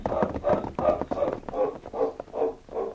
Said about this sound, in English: Come on, let's mount and ride away from here.